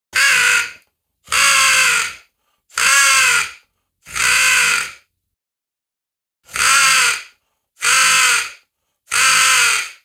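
A person imitates a raven's call with a guttural gurgle while practicing in a forest. Seven loud, rasping croaks come in an even rhythm, with a longer pause after the fourth.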